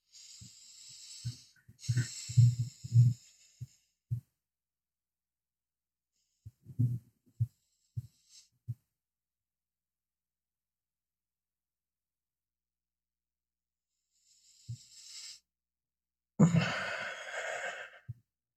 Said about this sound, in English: Take three deep breaths, and when you're ready, open your eyes.